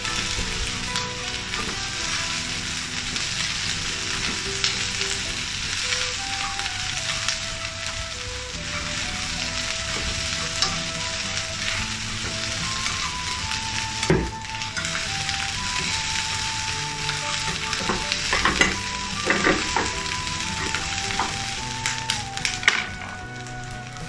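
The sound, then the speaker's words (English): Vegetables stir-frying in a pan over high heat give a steady, dense sizzle that runs the whole way through, with a few sharp taps and clicks standing out near the end. “Add the vegetables and stir fry over high heat.”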